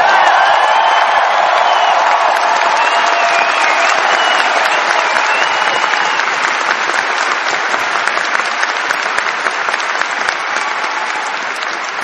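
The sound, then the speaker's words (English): Audience applause and cheering at a fan convention, a dense, steady wash of clapping with whoops and shouts layered over it, loud and sustained throughout without easing, no speech on top. “can we get a big applause for my mentor, Mr. Peter Mayhew?”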